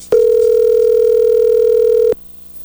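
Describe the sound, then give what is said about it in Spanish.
A telephone dial tone heard while a call is being dialed: a single steady, loud, unbroken tone lasting about two seconds that starts and stops abruptly, with no talking over it. “ahí se está marcando”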